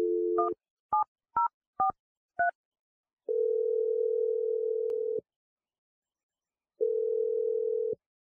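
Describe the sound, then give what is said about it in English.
A telephone number is dialed on a touch-tone phone: an opening tone, then five short beeps of differing pitch in quick succession. Two long, steady ringing tones follow, separated by a silent pause, with no talk. “I'm ready to dial Teddy's number.”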